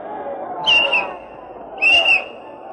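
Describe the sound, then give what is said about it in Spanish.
A magic whistle played as a farewell tune by a soldier at the gallows in a fairy tale: two shrill, high whistle notes, each about a third of a second long, separated by a pause, over a steady low background. “Desearía que me dejasen tocar una canción de despedida con este silbato.”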